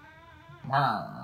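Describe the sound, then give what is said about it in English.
A cat meows once, loud and pitched with a quick rise and fall, after a quieter voiced stretch where a person appears to be talking softly. “I even play with my cat for a little while. What'd you say, Migo? What are you... Meow? Meow.”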